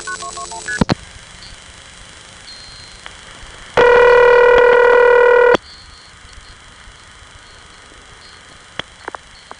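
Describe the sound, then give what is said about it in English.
Telephone dialing of an operator route code toward Mexico City: a quick burst of touch-tone digits opens, followed by quiet line hiss, then a loud steady tone lasting about two seconds, and a few faint clicks afterward. “Here's what happened when I dialed 189-221.”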